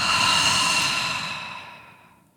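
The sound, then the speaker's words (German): A slow exhale during a guided breathing exercise: a soft, breathy whoosh that starts full and fades away gradually over about two seconds, heard alone without talk. “Noch einmal atme ein, mach dich lang. Und atme aus.”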